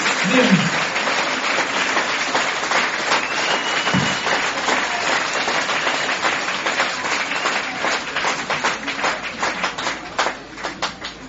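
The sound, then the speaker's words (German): Crowd applause at a German Football League American football game, dense and sustained at first, then thinning toward the end until separate claps stand out as it dies down. “Und Ein Applaus, Daniel”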